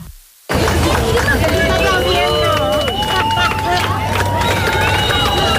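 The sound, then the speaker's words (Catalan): Hundreds of people watching a total solar eclipse on Barceloneta beach in Barcelona make a dense, steady hubbub of many voices with scattered higher shouts and whistles, loud after a brief quiet start. “centenars de persones, ho sentim de fons, han viscut el gran fenomen astronòmic des de la platja de la Barceloneta de Barcelona.”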